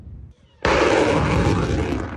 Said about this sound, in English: In this video released by the Ukrainian Ministry of Defense, Ukrainian forces shoot down a Russian cruise missile over the Odessa region.